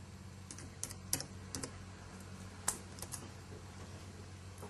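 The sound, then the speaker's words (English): Typing on a computer keyboard to search a word in a children's learning app: faint, sparse keystrokes in small irregular bursts, with a few sharper clicks standing out against quiet background hiss. “If I type in Sphinx with an F, okay.”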